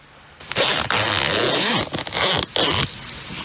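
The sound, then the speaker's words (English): Clothing zipper pulled in a few long, rasping strokes, bright and scratchy, with short gaps between them and no voices. “What does that zipper belong to?”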